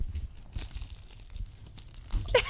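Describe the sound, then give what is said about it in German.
Crinkling and tearing of gift wrapping paper as a present tied with a gold cord is unwrapped. The rustling stays soft and uneven, then a louder burst of ripping comes near the end. “Okay, komm gleichzeitig auspacken.”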